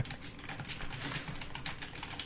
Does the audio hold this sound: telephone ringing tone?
no